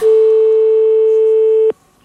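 A steady telephone off-hook tone from a receiver not properly hung up: a single unbroken mid-pitched tone, loud and alone, holding level for nearly two seconds before cutting off abruptly.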